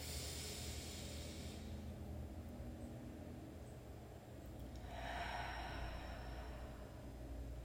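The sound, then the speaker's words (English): A deep breath in, taken during a morning breathing exercise. Soft, airy breathing swells into a fuller hiss near the end, faint over a low, steady background hum. “One, two, breathe in.”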